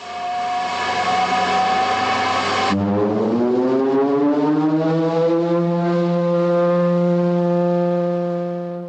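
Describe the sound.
Standby siren-type foghorn sounding a pure musical note: a loud, steady harmonic tone holds, then breaks off as a second tone slides upward in pitch and settles into a sustained blast.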